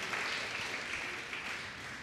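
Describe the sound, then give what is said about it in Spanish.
An audience claps during a church service, a soft, steady patter of many hands that carries evenly through the brief clip. “Denle un fuerte aplauso a Cristo Jesús.”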